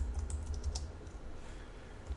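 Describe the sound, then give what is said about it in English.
Typing on a computer keyboard while entering values into a line of code: many quick, light keystroke clicks, busiest in the first second and softer afterward, with no talk. “And so what I could do here is type in”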